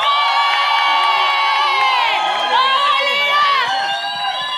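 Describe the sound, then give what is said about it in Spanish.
An audience at a show cheers and shouts for contestants, a loud continuous mass of voices with high whoops and yells throughout. “Vamos por una bulla por María. Y una bulla para Lina.”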